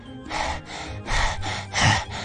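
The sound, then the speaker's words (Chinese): Deep breaths, three noisy airy bursts of breathing in an even rhythm, each rising and fading, with no talking. “然后深呼吸”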